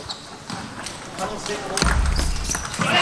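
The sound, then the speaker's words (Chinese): A table tennis serve aimed long at Sun Yingsha's forehand goes straight off the end of the table. A few light ball ticks sound under continuous commentary, then louder background noise swells. “这球他想发孙颖莎的正手长球，直接发出界了。”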